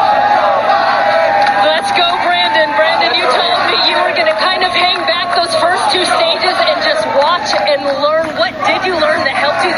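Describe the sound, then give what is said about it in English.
A crowd chanting at a race, a loud, continuous mass of voices with shouts and bellows, heard under a person talking throughout. “Brandon, you also told me, as you can hear the chants from the crowd,”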